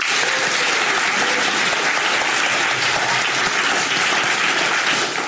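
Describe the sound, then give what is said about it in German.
An audience claps in loud, steady applause, an unbroken wash of clapping that holds at an even level to the end. “Und jetzt spielen wir die Geräusche ab und ihr tut dann mit Applaus sagen, ob ihr das Gefühl habt, dass das Geräusch drin ist.”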